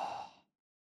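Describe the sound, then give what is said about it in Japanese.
A single soft exhale through the nose during a guided breathing exercise, a faint airy breath that fades out within half a second and is followed by silence. “鼻から深く吸って、 鼻からそーっと吐いて、”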